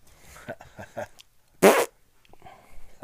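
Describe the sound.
A short, loud fart bursts out once in the middle, sharply louder than the quieter murmur of people talking before and after it.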